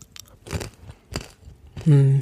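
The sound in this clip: Crunching on crispy, small triangular beechnuts with a mild nutty taste: a few crisp bites in quick succession, followed by a brief voiced hum at the end.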